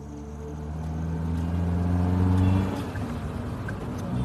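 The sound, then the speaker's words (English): Steady engine drone of a car driving south toward the Sundarban jungle near the Bangladesh border: a sustained low hum with a gentle swell in loudness midway, continuous throughout, with no voices. “We continue the drive south, getting closer to the Sundarban jungle”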